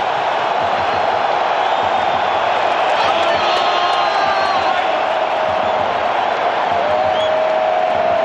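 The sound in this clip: A football stadium crowd roars after the goalkeeper's save in a match against Bosnia, a loud, steady wash of cheering with scattered whoops and shouts that holds throughout.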